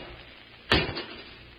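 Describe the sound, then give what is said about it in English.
A cage door is opened with a single short, sharp clunk that stands out briefly over a faint steady hiss, then fades back to quiet. “I'll open the cage”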